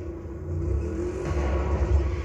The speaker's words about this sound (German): Du musst halt den perfekten Burnout auch hinbekommen.